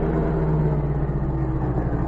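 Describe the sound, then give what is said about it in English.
A chauffeur-driven car's engine runs with a steady, low, even rumble at a barricaded road by a border station at night, holding constant throughout without clear change in pitch. “Hours later, the general's car approached the border station. As its headlights speared the darkness, M saw the barricaded road and issued an order to the chauffeur. Driver, we'll have to stop. The road is barricaded.”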